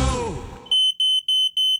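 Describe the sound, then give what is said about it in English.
A smoke alarm beeping: a run of rapid, shrill, evenly spaced electronic beeps, loud and alone, after a brief fading sound at the start. “Quick Check, your local smoke alarm specialist. Nobody knows smoke alarms like us.”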